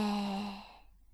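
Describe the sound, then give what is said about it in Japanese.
A single deep breath is let out, heard as an audible sigh during a guided deep belly-breathing exercise. The breath starts fairly loud with a slight voiced tone and fades away within about a second. “息を深く吸って吐いて。”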